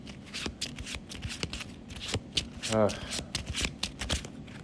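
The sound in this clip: Playing cards handled and drawn from an encounter deck during a card game: many soft rustling and flicking card sounds in an uneven stream, with sharper slaps scattered throughout.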